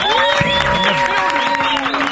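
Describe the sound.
A studio audience applauds and cheers to welcome a guest on a morning show. The steady patter of clapping blends with music playing underneath.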